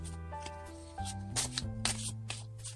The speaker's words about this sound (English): Let me mix these cards up a little bit.